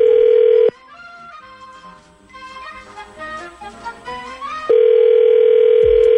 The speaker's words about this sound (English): We need to get her number from you, and then we'll call Sarah when we come back next.